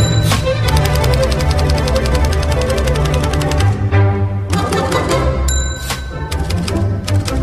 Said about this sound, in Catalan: les nostres màquines d'escriure, la meva Olivetti Verda i la teva... Una corona. Estan a punt per això, per començar a escriure llibres.